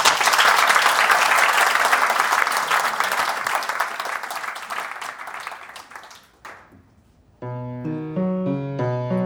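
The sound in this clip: An audience applauds musicians at an opera performance before Lenski's aria, a long, steady burst of clapping that thins and dies away, followed after a short pause by clear instrumental notes beginning.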